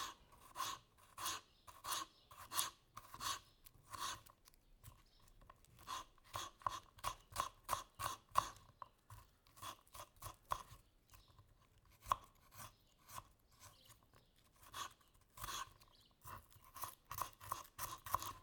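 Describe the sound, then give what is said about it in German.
A knife slices peeled garlic into thin slices on a wooden cutting board: many quick, sharp, faint taps come in irregular rhythmic runs separated by short pauses. “Ich schäle den Knoblauch mit dem Messer und lege den Knoblauch auf das Brett. Ich schneide den Knoblauch mit dem Messer in dünne Scheiben.”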